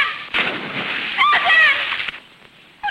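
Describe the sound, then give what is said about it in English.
A man diving into a river makes a loud, broad splash that rushes on for about two seconds, then fades into softer water sounds. “Tarzan steps down to a shaky branch overhanging the river. Oh, Tarzan! You see, you'll fall! He dives.”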